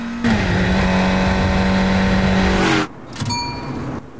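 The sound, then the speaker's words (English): A car accelerates and speeds ahead with a loud, steady engine roar lasting nearly three seconds. The roar cuts off abruptly, leaving a quieter, uneven noise. “Sophie presses down on the accelerator and she speeds ahead”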